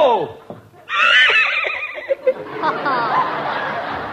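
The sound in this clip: A horse gives a loud, shrill whinny as a rider charges in during a comedy western scene. Voices chatter over the noise right after the neigh.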